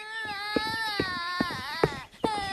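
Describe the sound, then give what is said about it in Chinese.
A little girl cries hard after tumbling while climbing out of a wooden barrel and bleeding from the mouth: a high, wavering wail broken by a few short sobbing catches of breath, loud and with no talk. “娟娟在哭，她从木桶里往外爬，摔得满嘴都是血”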